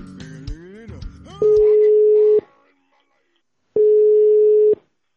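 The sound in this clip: Outgoing telephone call being placed: two long, steady, mid-pitched ringback tones separated by a pause, following a short stretch of talk at the start.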